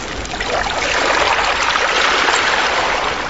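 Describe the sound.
Water sloshes and trickles steadily as poles push boats across it, a continuous, even wash of watery noise with no voices.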